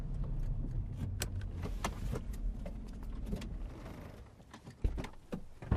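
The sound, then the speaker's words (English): A car pulls to a stop with a passenger riding in the backseat. A steady low rumble of the ride is broken by a few sharp clicks and knocks, and it stays fairly loud throughout. “Léo rides in the backseat of a car as it pulls to a stop.”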